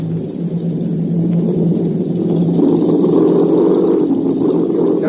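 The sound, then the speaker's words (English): Aircraft motors keep running after a forced landing, producing a steady, loud, low engine rumble that holds throughout without talk. “As soon as we're stopped, you head her into the wind and keep the motors running while I'm gone.”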